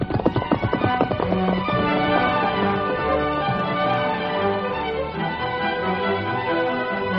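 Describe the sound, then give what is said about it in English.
Horse hooves clip-clop as a rider mounts and rides off, a quick rhythmic run of many hoofbeats that settles into a dense, steady, loud stretch of sound lasting several seconds, with no talk over it. “All right, get mounted, Steady. Easy now. Steady, Silver. Easy, boy. Come on, Silver. Get up there.”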